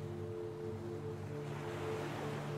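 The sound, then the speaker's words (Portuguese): Ocean waves on a beach form a soft, continuous surf hiss that rises and settles gently beneath steady, low, sustained music tones. “E então, você se encontra na praia mais linda que você já viu, a sua praia favorita.”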